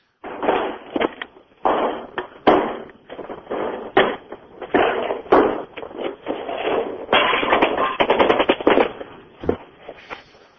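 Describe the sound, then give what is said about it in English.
A gunfire sound effect played from a CD: many rapid, loud bursts of shots in uneven volleys that run almost without pause. “Is the sound effect CD already in? I've only got about 10 bullets in.”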